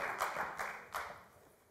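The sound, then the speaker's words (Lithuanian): Applause from a studio audience welcoming a guest onto a talk show: quiet, steady clapping with a few louder bursts standing out in the first second. “Pasitikime plojimais.”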